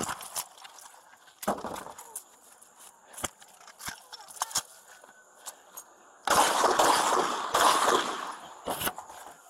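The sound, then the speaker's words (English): Gunshots ring out in a sheriff's office body-camera shootout: several sharp, isolated bangs spaced irregularly, with a loud, dense stretch of rapid cracks and noise toward the end. “Shots fired.”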